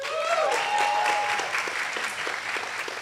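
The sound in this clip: A church audience applauds to welcome the pastor's wife onto the stage, a brief burst of full clapping that starts strong and eases off slightly toward the end.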